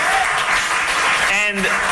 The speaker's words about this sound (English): We can clap for that.